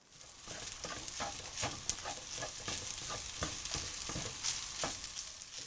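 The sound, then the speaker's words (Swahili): Ingredients with raisins fry in a pan while being stirred, producing a steady, soft sizzle. Many quick scraping strokes from the stirring run through it, and the whole sound stays fairly faint. “Kaanga kila kitu pamoja kwa muda mrefu kidogo na uongeze viambato vingine vilivyosalia.”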